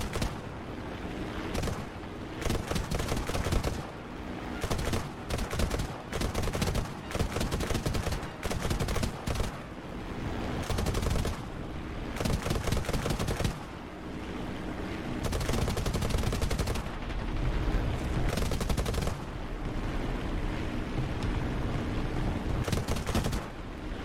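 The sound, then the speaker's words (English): Gunfire in a video game as enemies are shot down among mountains, including ground vehicles: many loud bursts of rapid automatic fire with brief gaps, continuing densely throughout. “I need to shoot a few of these guys down because they're causing me problems.”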